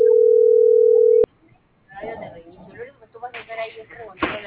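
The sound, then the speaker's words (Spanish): A steady, loud telephone dial tone holds for just over a second while a call is being placed, then cuts off abruptly with a sharp click. Talk follows. “Le estoy marcando. Le estoy marcando.”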